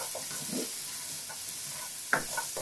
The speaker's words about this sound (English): that's going to saute my stems. They smell pretty good.